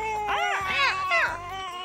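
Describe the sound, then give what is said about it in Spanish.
A baby girl cries in three rising and falling wails, high and fairly loud, with a steady faint tone underneath. “¡La niña está llorando! ¡Creo que ya quiere su comida!”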